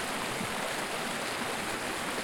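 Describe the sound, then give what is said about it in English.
Water rushing steadily in a 4-foot stream at the start of the Bad River in Wisconsin, a continuous broad hiss with no voices. “beginning of the Bad River. You can hear that water rushing. That 4-foot stream is the beginning of the Bad.”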